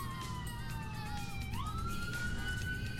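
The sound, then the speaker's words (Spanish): A siren wails from a fire department water tanker truck passing outside the radio station studios, faint and continuous, its tone sliding down slowly and then sweeping back up to hold a higher pitch. “El carro aljibe del Cuerpo Bombero del Agua, la segunda compañía, el que acaba de pasar de por fuera de los estudios de la emisora”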